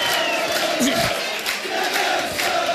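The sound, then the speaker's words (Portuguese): Football crowd cheering on the Viana do Castelo team, a loud continuous roar of massed voices with rising shouts and chant-like swells throughout. “O público puxa pela equipa de Viana do Castelo.”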